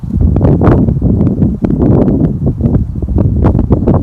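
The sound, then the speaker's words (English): Wind blowing outdoors in nature: a loud, low rushing rumble with buffeting gusts and crackling rustle, steady throughout with no voices. “Stillness so you can hear the wind.”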